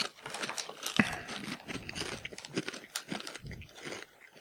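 Crunching and biting of Koikeya potato chips during a side-by-side taste comparison, with crinkling of the snack bag. Many crisp, irregular crunches and rustles run steadily throughout, with one sharper snap near the start.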